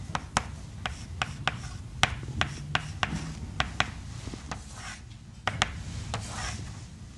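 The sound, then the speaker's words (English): Scratching and tapping of an equation being written out by hand: many quick, sharp ticks and short strokes in an uneven rhythm, faint throughout. “So I need to write, in this case then, if I'm writing W dot, let's write that out.”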